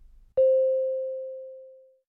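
A single chime in an English listening test: one clear mid-pitched ring that starts sharply and decays slowly over about a second and a half, heard alone without talk.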